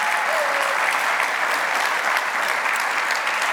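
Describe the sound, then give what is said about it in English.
Audience applause for teachers at a morning gathering: dense, continuous clapping from many hands, loud and steady from start to finish. “And if you love our teachers, let me hear your hands this morning. We love teachers.”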